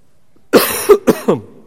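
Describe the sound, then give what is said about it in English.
Four harsh, throaty coughs in quick succession from one person, the first loud and abrupt, the later ones shorter and rougher. “And yes, I am coughing all the time these days.”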